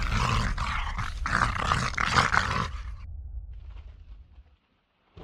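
Low, rough growling fills a house, harsh and noisy in several overlapping bursts, then thins into a quieter low rumble that fades out into silence.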